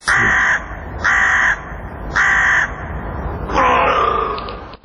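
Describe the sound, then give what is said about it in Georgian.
Crows caw in four loud, harsh calls at an even rhythm of about one per second, the last one longer and more ragged, over a steady background of street noise. “ყვავიდა ყორანი, ლათინურად კორვუს.”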